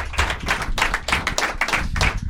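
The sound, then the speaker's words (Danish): Audience applause greets a guest, a pet-food taster, being welcomed up front. Brisk, even clapping from many hands pulses at a steady rate, moderately loud, with a low thumping underneath. “giv en kæmpe stor hånd til en dyrefoder smager. Giv en kæmpe stor hånd til ham.”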